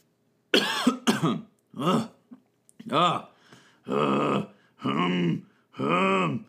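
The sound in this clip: A person with an irritated throat coughs and clears their throat several times in a row, each a rough, voiced burst with throaty groaning tones, spaced out by short pauses.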